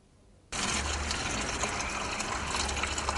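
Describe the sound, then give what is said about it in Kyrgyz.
Water rushes into empty containers at a small guesthouse after the supply returns from an outage. After a quiet start it begins abruptly and loudly, then continues as a steady, dense gush. “Эми суу берилери менен ал бош идиштерди толтуруу менен алек.”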